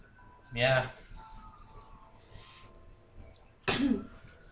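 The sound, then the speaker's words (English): Two loud, harsh coughs, one early and one near the end, are separated by a quiet stretch with a faint breathy sound between them. “Coughing's in character.”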